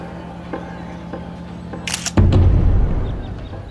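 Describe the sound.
A camera shutter fires to take a photo, giving a brief, sharp click that is followed at once by a louder, low rumbling noise.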